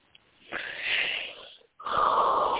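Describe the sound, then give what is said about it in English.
A deep breath drawn in: a long, airy, hissing inhale. After a short pause there is another strong rush of breath. “I just took a deep breath in.”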